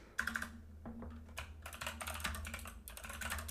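Typing on a clicky computer keyboard: quick, irregular bursts of sharp keystrokes separated by short pauses, fairly quiet and with no talking.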